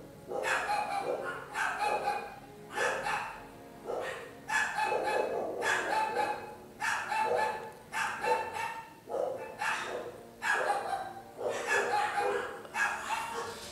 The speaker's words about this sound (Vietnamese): Bây giờ đến lượt là chó nhà hàng xóm biểu tình.